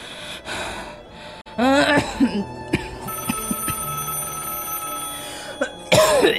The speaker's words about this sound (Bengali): এমন সময় টেলিফোনটা বেজে ওঠে